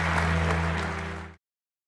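Brief audience applause, clapping for a man who was a good sport, plays faintly over a steady low hum and cuts off abruptly after a little over a second, followed by silence.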